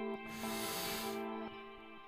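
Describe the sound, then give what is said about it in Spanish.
A deep inhale through the nose during a guided breathing exercise: one soft, airy hiss that swells and lasts about a second, faint and alone with no talking. “vamos a inhalar cuando cuente tres. Uno, dos, tres.”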